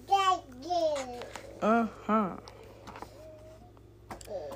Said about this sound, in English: as you can hear my little baby in the background.